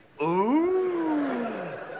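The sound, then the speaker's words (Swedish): A rutting deer stag's mating roar: one long, loud, moaning call with a deep, throaty tone that rises briefly and then slowly falls as it draws out. “Först så utbringar de sitt bröl. Det vansinniga parningsbröl. Det låter ungefär så här.”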